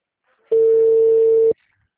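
A single ringback tone on a phone line while a call is being placed, one steady mid-pitched beep lasting about a second that starts and stops sharply, with silence on either side.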